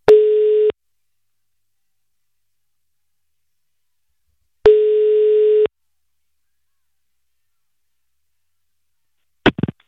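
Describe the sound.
A telephone ringing tone sounds while a call is placed. Two steady, single-pitched tones of about a second each are separated by a few seconds of silence, and a brief burst of sound follows near the end.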